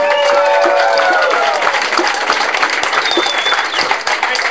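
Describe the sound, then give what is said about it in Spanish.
At a gathering, a crowd applauds the women comrades with loud, dense clapping that carries on steadily, while a few voices ring out above it early on. “Un aplauso para las compañeras.”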